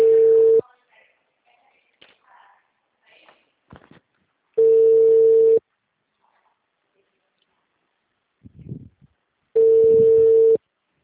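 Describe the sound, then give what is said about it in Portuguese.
A phone's ringback tone while calling someone: three one-second bursts of a steady mid-pitched tone separated by roughly four seconds of near silence, with faint murmurs in the gaps. “Só vou ligar para ela, ver se ela já me atende”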